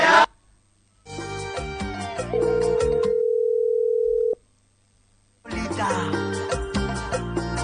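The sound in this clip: A telephone call goes unanswered as a steady ringing tone holds for about two seconds between louder bursts of other sound, then stops abruptly.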